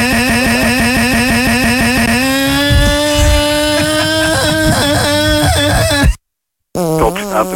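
A moped struggling to start: loud, rapid sputtering for about two seconds, then a rougher wavering drone that rises and dips in pitch, broken by a brief silence before a short burst of sputtering returns.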